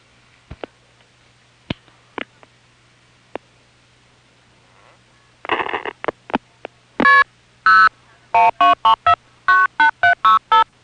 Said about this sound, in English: Phone's ringing. Better see who it is.